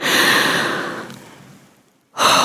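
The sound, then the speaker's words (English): A big, deep breath, loud and breathy. It starts strong, fades away over about two seconds, and then a second breath starts sharply just before the end. “the first thing is to take a big, deep breath.”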